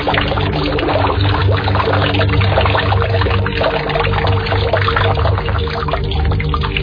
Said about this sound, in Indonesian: Bak besar itu terhubung dengan sebuah air pancuran yang mengalirkan air ke bak.